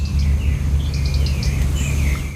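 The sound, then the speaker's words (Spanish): A European robin gives clicking calls at dawn. A scattered series of short, high chirps and ticks sits over a constant loud low rumble. “Está amaneciendo y escuchamos los primeros chasquidos del petirrojo europeo”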